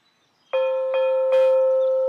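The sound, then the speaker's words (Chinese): A dinner gong rings to call people in for lunch. It is struck three times in quick succession, and each bright metallic strike blends into a sustained, loud ringing tone. “这个时候开饭的锣声响了，我们一起进屋吃午餐。”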